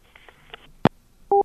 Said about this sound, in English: Hey, hang up the phone. Why? Because I command you to. Hang it up.